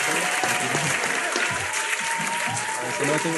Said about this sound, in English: So a round of applause for him.